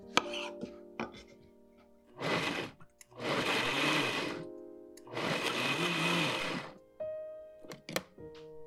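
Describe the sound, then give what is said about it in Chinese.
A blender purées chopped red, yellow and orange tomatoes in three loud whirring bursts, a short one followed by two long runs, with a few dull thunks and knocks in the pauses. “我今天选的番茄有黄的，有红的，甚至有的偏橙色。把每一颗番茄切成小块，放到果汁机当中。”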